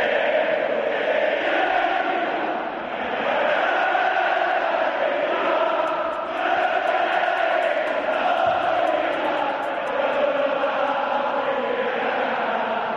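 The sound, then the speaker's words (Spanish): Sevilla football fans cheer at a morning team training session opened to supporters. A steady, loud crowd roar of mingled shouts and voices runs throughout without a break. “este es el sonido de la afición del Sevilla por la mañana.”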